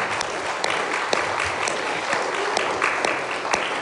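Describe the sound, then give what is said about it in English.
Applause from an audience at a church service: dense, steady clapping that holds at an even loudness throughout the few seconds, with no talk over it. “give them another round of applause.”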